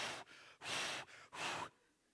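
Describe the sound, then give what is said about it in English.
A person imitates heavy breathing from jogging with three loud, rushing breaths in quick succession, each a breathy burst separated by short pauses, then fading to quiet. “So by the time I get around the corner, I'm breathing like this.”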